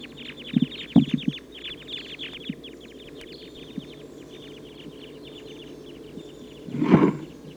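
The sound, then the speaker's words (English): Many short, faint, high call notes come from a flock of about 14 type 2 red crossbills flying over, mostly in the first half, followed near the end by a louder low rumbling burst. “That big flock of about 14 type 2 crossbills took off to the south.”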